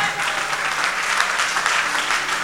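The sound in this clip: An audience applauds during a church service, acclaiming the Lord: thick, continuous clapping with no distinct beats, staying loud and uniform for the whole stretch.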